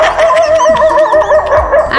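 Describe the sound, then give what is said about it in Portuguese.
Hungry dogs barking, a rapid string of high, whiny yips and short barks that repeat throughout. “Os cachorros já tá latindo de fome.”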